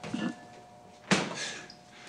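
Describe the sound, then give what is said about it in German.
A refrigerator door is shut with a single soft thud just past the midpoint. Quiet background and faint low noise surround it, with no talk. “Ich denke nur, Sie sollten die Kühlschranktür wieder zumachen.”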